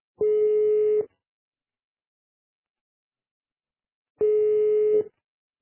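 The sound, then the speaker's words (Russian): Telephone call-forwarding tone on a phone line: two steady, mid-pitched beeps, each lasting just under a second, separated by about three seconds of silence. “О, уже другой звонок, переадресация.”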